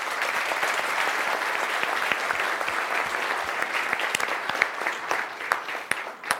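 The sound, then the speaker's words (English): Audience applause welcoming a speaker to the stage: steady, sustained clapping from many hands, loud and even throughout, with sharper individual claps standing out toward the end. “So if you can give Mr. Barry Maguire a big hand, welcome him up here.”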